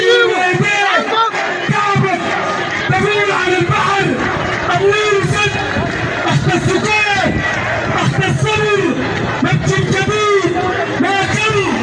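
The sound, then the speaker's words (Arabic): Protesters chant slogans demanding a detainee's release outside his house, a loud, unbroken mass of rhythmic shouting voices. “كما احتشد المتظاهرون أمام منزل المعتقل أحمد الفاتح الشهير بالنانا مرددين هتافات تطالب بإطلاق سراحه.”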